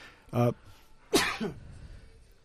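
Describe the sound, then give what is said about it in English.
A single sneeze comes as a sudden, explosive burst with a short voiced tail. Before it there is a brief throat-clearing sound, and no other activity follows. “sorry, I had to sneeze there.”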